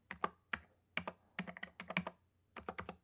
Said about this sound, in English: Let me type in elderly positions of authority.